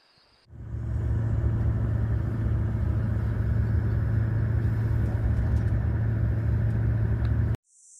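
A vehicle engine starts up with a steady low rumble as the vehicle drives on, holding an even, loud drone for about seven seconds before cutting off abruptly.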